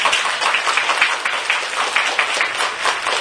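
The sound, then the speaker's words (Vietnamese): Dense, steady applause from an audience at a Buddhist dharma talk during a retreat. The clapping is even and continuous for the whole clip, with no voices over it. “cho các bậc cha mẹ một tràng pháo tay quý vị”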